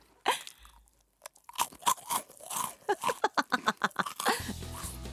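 Pickles crunch loudly as they are chewed, producing many crisp, rhythmic bites that speed up into a steady run of crunches.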